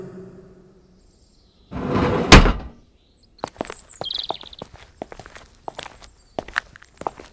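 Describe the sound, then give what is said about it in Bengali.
A glass door is pushed open with a brief broad whoosh, followed by many footsteps walking in, a string of sharp irregular taps. “কাঁচের দরজাটা ঠেলে ভেতরে ঢুকলাম”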